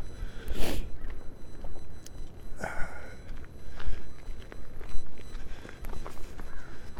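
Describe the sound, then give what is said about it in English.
People step tentatively outdoors across treacherous ground, with many irregular footsteps and scuffs at an uneven pace over a low, steady outdoor background. “Everybody's walking very tentatively.”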